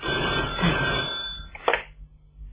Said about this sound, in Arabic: ايوه ده التليفون. ثانية واحدة يا عمي. انا اللي هرد.